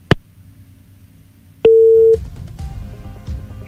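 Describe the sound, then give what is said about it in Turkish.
Busy tone after a phone call dropped: a click, then one steady, low, electronic beep lasting about half a second, followed by faint line noise. “Düştü mü? Düştü. Peki tekrar arıyor”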